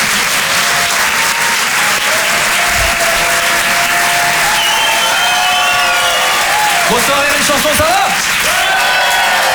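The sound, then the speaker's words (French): Audience applause and cheering in a comedy club: a dense, loud, unbroken wash of clapping runs throughout, with whistles and crowd voices mixed in. “Faites du bruit s'il vous plaît pour Arnaud Demanche.”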